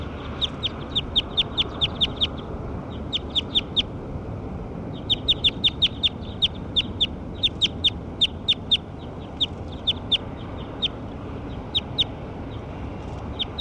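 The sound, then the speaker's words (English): Bird calls ring out as sharp, high chirps repeated in quick bursts. Short pauses separate the bursts, and a low, steady rumble runs underneath. “Those are the calls of bird 6.”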